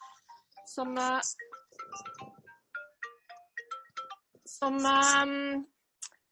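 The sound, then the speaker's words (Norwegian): A private phone's ringtone sounds in two loud bursts of bright tones, with a string of shorter chirping notes between them. “det var ikke sykehuscalling, det var en privattelefon, den kunne jeg bare skrive av.”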